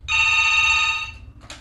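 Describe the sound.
A telephone rings at a help line: one sustained, bright electronic ring lasting about a second, then a brief quiet pause.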